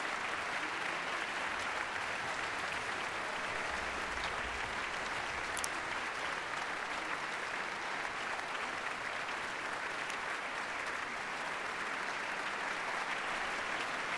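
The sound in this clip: Applause for the Luxembourg Philharmonic Orchestra and its conductor at a concert in the Philharmonie, a dense, unbroken roar of clapping that holds at an even level for the whole stretch.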